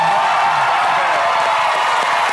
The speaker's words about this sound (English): Stop. Quit clapping.